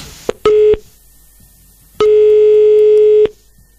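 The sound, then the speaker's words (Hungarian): Telephone ringback tones sound as a Hungarian radio morning show calls a listener: a short, loud, buzzy tone, then after a pause a longer steady one at the same pitch. “Na, hívjuk már is a nap hallgatóját.”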